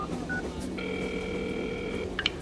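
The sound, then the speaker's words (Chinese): Telephone tones sound as a number is dialed for a call: a short beep, then a long steady tone lasting about a second, followed by a couple of quick higher beeps. “那你还不赶紧打电话呀。”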